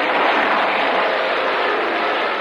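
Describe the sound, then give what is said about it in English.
Fighter plane machine-gun fire during an aerial battle with a Zero over the ocean: a loud, dense, continuous roar of fire in which no separate shots stand out, steady throughout. “An enemy plane attacks Ernie. Ernie fires back.”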